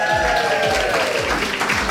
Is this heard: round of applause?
yes